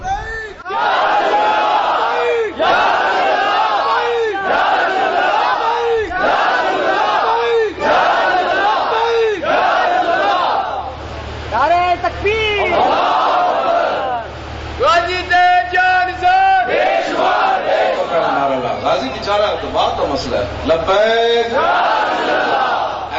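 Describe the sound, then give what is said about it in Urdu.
A crowd at a conference chants slogans in unison: many loud, rhythmic shouted bursts repeat about once a second, then give way to longer, drawn-out massed cries near the end. “ہر بندہ اندروں سینے چو آواز لائے، ایک رسمن میں نعرہ نہیں لا رہا”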